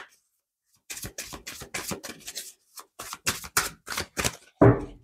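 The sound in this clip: Tarot cards being shuffled and drawn: after a brief silence, many short crisp snaps and flutters follow in uneven bursts, ending in a slightly fuller rustle.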